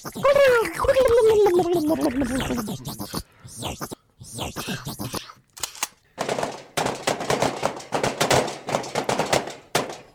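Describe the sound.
Gunshots fired at an alien in a comedy sketch: a warbling vocal sound and scattered short bangs give way to rapid, rattling bursts of gunfire that fill the last few seconds.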